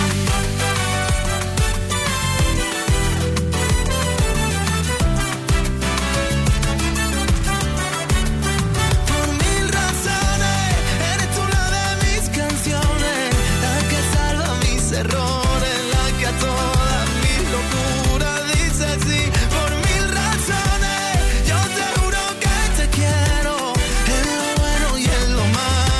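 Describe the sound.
A new Spanish-language pop song plays loudly and continuously, with a steady drum beat under full layered instrumentation and a sung melody.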